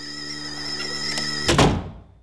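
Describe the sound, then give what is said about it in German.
An angry schoolboy storming out slams a classroom door shut: one heavy, sharp thud cuts over a steady tonal hum, then quickly fades to silence. “Er knallt die Tür hinter sich zu.”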